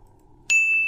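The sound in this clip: A system notification chime sounds in an audiobook: one bright, high ding that strikes after a quiet moment and keeps ringing steadily to the end.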